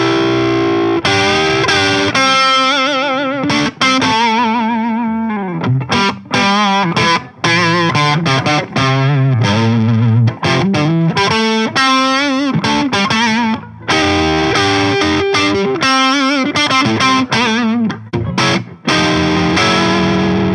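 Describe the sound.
Distorted electric guitar on a PRS SE 245 played through the neck pickup: a busy, loud stream of riffs and ringing chords with brief gaps, heard alone without talk.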